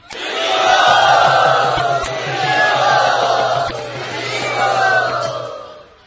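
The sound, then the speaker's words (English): A crowd at a yatra gathering cheers and roars loudly to welcome guests, the sustained din swelling in three broad waves before it fades at the end. “Can you both stand up, please? Let us very enthusiastically and loudly welcome them to our yatra.”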